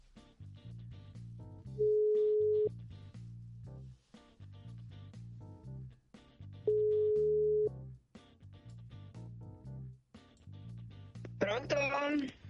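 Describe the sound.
Telephone ringing tone on a call being placed: two long, steady mid-pitched tones, each lasting about a second and spaced several seconds apart, heard over a continuous busy background of other sound.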